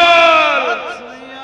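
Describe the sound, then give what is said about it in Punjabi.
A crowd shouting a Sikh jaikara: a loud, sustained cry from many voices that holds for over a second while its pitch sinks slightly. “ਆ ਸਾਰੇ ਕਰੋ ਜੀ ਇੱਕ ਜਕਾਰਾ ਛੱਡੋ ਪਿਆਰ ਨਾਲ।”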